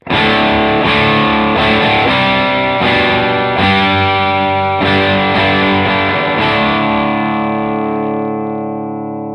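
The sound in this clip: An electric guitar plays through a distortion pedal on its diode lift setting, with the switch in the middle position and the knobs at 12 o'clock: several loud, fuzzy, rich strummed chords, then a long sustained ring-out that slowly fades, with no voices.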